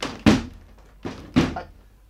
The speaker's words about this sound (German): Was ist denn das? Ja, was ist denn? Die Tür geht nicht auf.